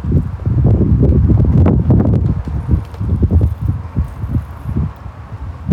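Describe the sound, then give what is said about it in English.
Wind blows outdoors, gusting and buffeting the microphone with a low, continuous rumble that swells and eases in uneven bursts for the whole stretch, with no voices. “Bourbon with this wind chills up pretty quick out here with this wind.”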